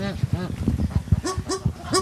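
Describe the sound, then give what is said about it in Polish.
Geese honking at a wildlife rescue centre where birds that could not migrate are overwintering; a dense run of loud, overlapping nasal honks repeats steadily, call after call, throughout. “Tak, tutaj tu są gąski”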